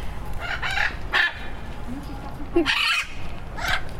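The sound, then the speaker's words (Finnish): Parrots call nearby in a few loud, raspy squawks spaced irregularly, each a harsh burst, with people talking in the gaps between them. “No nyt ollaan ihan papukaijojen äärellä.”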